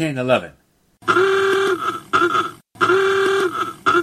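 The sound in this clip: Horn of an early 1911 motor car sounding two long, sustained honks with a brassy, buzzy tone, separated by a brief gap.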